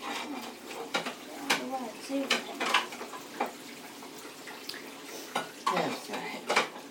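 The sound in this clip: Dishes, pots and cutlery clatter while someone washes up by hand, producing many sharp, irregular clinks and knocks of varying loudness throughout.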